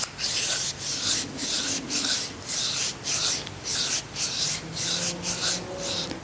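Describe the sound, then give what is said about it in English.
Hands rubbing together close to the face: a steady run of many rhythmic brushing strokes, each a loud, airy rasp, with no voices. “You might like to rub your hands together now, closer to your face.”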